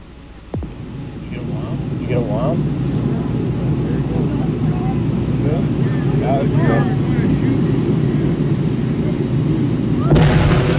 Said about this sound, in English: Our camera stopped rolling immediately after the blast.